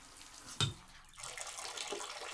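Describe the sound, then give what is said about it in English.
Water runs from a shower faucet in a steady, soft hiss, with a brief sharp knock early on before the flow continues evenly. “I think we should wrap up in the shower and go to the bedroom. Why don't we just turn off this faucet?”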